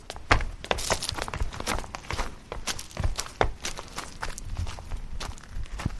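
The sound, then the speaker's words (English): Footsteps descend uneven limestone steps into the crypt of St. Michael's, where mummies lie, many firm, irregular treads and scuffs following one another steadily with no talk. “I'll be taking you down to see the mummies. The steps are a bit uneven. Be careful of the fourth one. It's big.”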